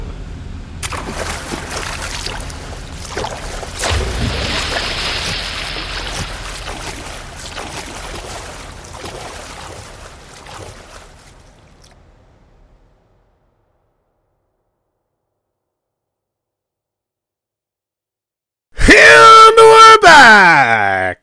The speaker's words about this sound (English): The water's rising rapidly now. Shall we swim for our lives, Frozenberg?